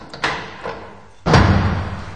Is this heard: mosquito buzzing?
no